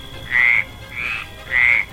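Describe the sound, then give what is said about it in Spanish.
A toad croaks three times at an even pace. Each call is a bright, fairly high, buzzy burst lasting about a third of a second, heard alone over soft background hiss. “Un orgullo también que me acompañe el sapo.”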